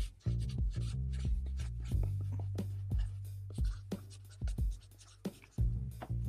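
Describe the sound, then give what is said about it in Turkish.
Pen scratching on paper as someone writes by hand: a run of short, fairly loud strokes and scrapes in an uneven rhythm, with a low steady hum underneath and no talking. “Dur bir dakika ben kağıda yazıp şöyle göstereyim aynen bir saniye.”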